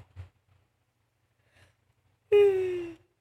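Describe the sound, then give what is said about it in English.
A tired person yawns once, a voiced, drawn-out breath whose pitch slides downward, after a couple of faint short breaths. “sorry, a little yawn, a little bit tired.”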